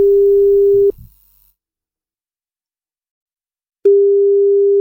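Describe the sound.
Telephone line tones sound as a radio host dials a listener. A loud, steady single-pitch tone cuts off, leaving a few seconds of silence, then the same tone starts again and holds.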